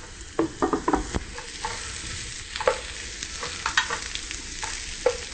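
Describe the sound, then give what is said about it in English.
Vegan ham sears in a hot pan with a steady, hissing sizzle. Many sharp clacks from stirring come in uneven bursts over it, and no one speaks. “You don't want to cook the vegan ham too long. You just want to cook it so it's a little bit seared on both sides”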